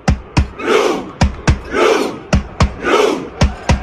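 Football fans at the World Cup performing a Viking-style battle cry: pairs of sharp beats alternate with three deep, loud unison shouts from the crowd in a slow, regular rhythm.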